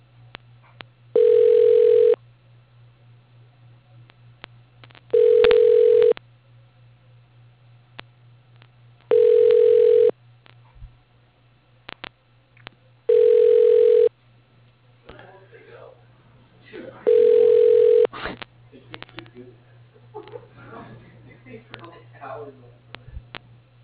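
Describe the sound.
A telephone ringback tone plays while an office call is transferred to a secretary: five steady, even-pitched tone bursts repeat at regular intervals about four seconds apart over a low line hum, and faint talk follows near the end.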